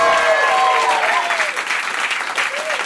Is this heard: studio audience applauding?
yes